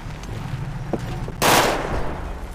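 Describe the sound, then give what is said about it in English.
Gunfire in the FiveM video game comes as one loud burst of rapid automatic shots lasting about half a second, then fades, with faint quieter sounds before it. “Who's still shooting?”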